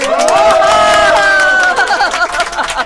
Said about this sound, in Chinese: 哇，你看这么多人给你鼓掌啊！